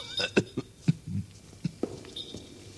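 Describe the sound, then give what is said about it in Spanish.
A man's fit of coughing in a nitre-lined vault, a few sharp, rough bursts spaced unevenly across about three seconds, with no talk. “El ataque de tos le impidió responderme al momento.”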